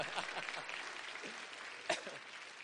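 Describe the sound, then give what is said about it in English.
Applause from an audience welcoming someone called up to help before an event begins: a faint, steady patter of clapping throughout, with one sharper clap near the end. “Everybody give him a hand.”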